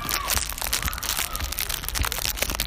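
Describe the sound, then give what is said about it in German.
Wrapping crinkles and crunches steadily as a package is unpacked, a dense, continuous crackle of handled packaging with no pauses. “Dann fangen wir jetzt mal an mit dem Auspacken.”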